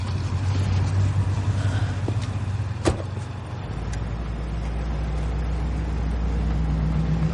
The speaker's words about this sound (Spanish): La ambulancia se va.